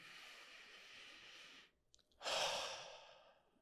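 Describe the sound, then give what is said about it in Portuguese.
A deep belly breath during a guided healing breathing exercise starts with a long, soft inhale. After a brief pause, a louder, breathy exhale through the mouth fades out gradually. “Inspira na barriga, longa e profundamente. Agora solta pela boca. Mais uma vez. Inspirou.”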